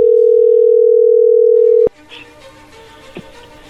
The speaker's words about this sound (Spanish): Vamos a ver qué pasa, vamos a llamarle.